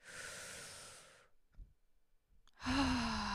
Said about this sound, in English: So to end this podcast, I'd like to take a well-needed big deep breath in.